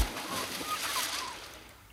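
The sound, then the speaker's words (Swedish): A splash of someone diving into water: a broad, rushing wash of noise that starts sharply, holds for about a second, then slowly fades away. “dyker nu ner för att spana. Plums i böljan!”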